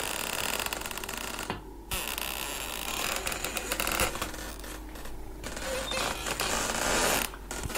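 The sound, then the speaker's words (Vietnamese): A kitchen door's hinge creaks as the door opens during wind and rain, giving drawn-out scraping creaks over a constant loud hiss. “tiếng mở cửa bỗng nhiên phát ra. Trong mưa gió ẩm ĩ như thế mà cái tiếng bản lề kêu lên ken két xoáy vào tai nó.”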